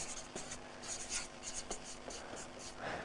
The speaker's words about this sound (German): Ich schreibe mal das Titel von heute, das göttliche Geschenk